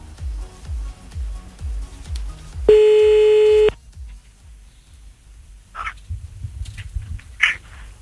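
A steady electronic telephone line tone rings for about a second while a call is being placed. It sits over a low rumbling background and is followed by a few faint clicks.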